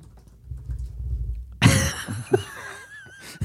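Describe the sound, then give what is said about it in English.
Faint, quick tapping on a computer keyboard runs for about a second, then gives way to a sudden loud vocal noise and scattered voice sounds. “That's so annoying. I'm going to do it every time you type.”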